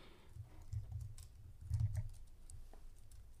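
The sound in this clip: Typing a search query on a computer keyboard: quiet, scattered soft key clicks with small clusters of keystrokes.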